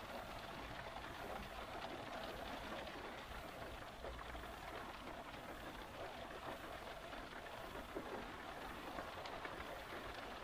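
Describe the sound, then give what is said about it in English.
Rain patters on a car roof as a soft, continuous hiss of many small drops. The sound is faint and steady throughout, with no distinct individual hits. “The rain pitter-pattering on the roof.”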